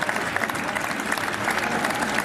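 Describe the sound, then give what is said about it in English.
A crowd cheers and claps for the new Prime Minister, Andy Burnham, a loud, dense, continuous roar of applause with small swells in level. “Here we go, Andy Burnham, the new Prime Minister, accepting the cheers.”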